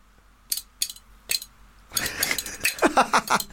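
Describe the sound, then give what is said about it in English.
Spoons played as percussion against the knees: three sharp isolated clacks, then a rapid, loud run of rattling metallic clicks in a quick, driving rhythm. “You're playing We Will Rock You on the Spoons. It's incredible.”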